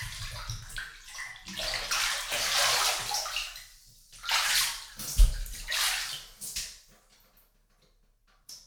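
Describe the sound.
Water sloshes and splashes in a bathtub as someone bathes, in several uneven bursts of churning, splashy noise that rise and fade between short quieter gaps, with no talking.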